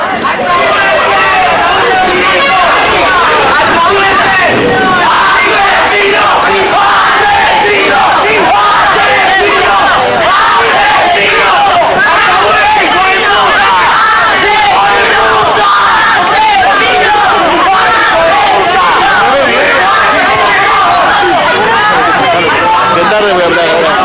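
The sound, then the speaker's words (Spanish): An angry crowd shouts and yells insults outside Cárcel Central as the sons of Juan María Bordaberry leave, a loud, continuous din of overlapping voices. “Golpes, empujones, insultos y gritos hubo aquí en la zona de Cárcel Central cuando los hijos de Juan María Bordaberry se retiraron pasadas las 10:30 de la mañana.”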